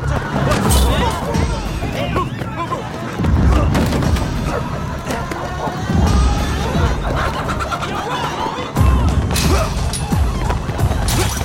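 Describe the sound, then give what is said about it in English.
Glass bottles are thrown by hoodlums and smash in a drama chase scene. Several sharp crashes and thuds come among dense, noisy commotion, loudest in a few bursts spread across the scene. “The hoodlums throw bottles as Ludlow speeds off.”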